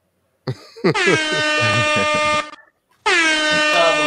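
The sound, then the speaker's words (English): Two loud, blaring air horn blasts: a short one sounds first, then a long sustained one, and after a brief pause a second long blast is cut off at the end. “Sound the horn.”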